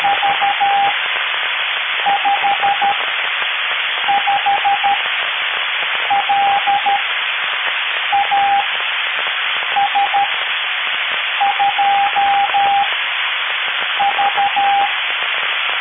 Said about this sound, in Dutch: Ja, en ik hoor hier zelfs een morsensignaal.